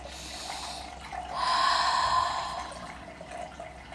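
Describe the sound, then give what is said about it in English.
A deep breath during a guided meditation: a soft, airy rush of breath swells slowly, holds, then eases away. It is quiet and heard alone, without talk. “So you can close your eyes and take a deep breath.”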